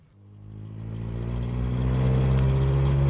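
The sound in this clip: A car engine revs up and pulls away as someone drives off in a radio drama scene, its steady mid-pitched drone growing louder over about three seconds.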